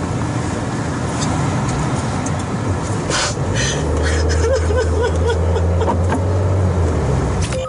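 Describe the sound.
A car is driven to hospital, with steady engine and road rumble filling the whole stretch. A low, droning engine hum grows stronger partway through.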